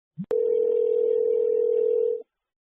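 A telephone line tone sounds before the next call connects: a short blip and a click, then a steady, mid-pitched tone held for about two seconds, alone.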